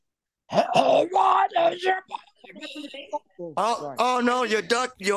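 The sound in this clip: A voice imitates a phoenix scream with long, strained, wavering cries and groans. The cries are loud and almost unbroken, and they grow shriller and more insistent toward the end.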